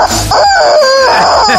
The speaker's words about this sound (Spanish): Y luego un pollo de goma, que es para tomar el pelo a los amigos, que es horroroso y suena así.